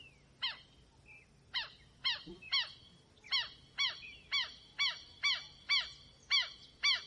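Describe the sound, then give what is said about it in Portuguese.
Harsh, strident calls of southern lapwings (quero-quero) guarding their territory: a dozen loud, sharp cries repeat in a steady rhythm, coming faster toward the end. “E quem também gosta de expulsar intrusos do seu território são os quero-queros.”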